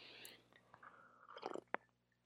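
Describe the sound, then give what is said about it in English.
A person takes a quiet sip of water, heard as faint, soft mouth noises and a few short, wet clicks. “Let me take a sip of water here.”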